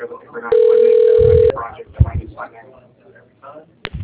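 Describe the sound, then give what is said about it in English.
A telephone rings while a call is being transferred to an operator. A loud, steady tone lasts about a second, then voices talk and a brief second tone burst follows. “To reach the operator, please enter the extension number. Your call is being transferred to the operator.”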